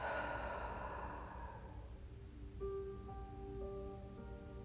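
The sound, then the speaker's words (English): A deep breath is released as one long, breathy exhale that fades over about two seconds, followed by soft, sustained musical tones. “And so let's take a deep breath. And release it.”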